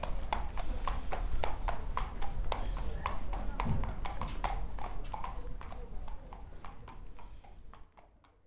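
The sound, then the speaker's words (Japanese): A horse walks at an equestrian park, its hooves clip-clopping in a steady, even rhythm of many strikes that fade slightly toward the end, with voices faintly present. “お馬さんがパッカパッカと歩いておりましたが”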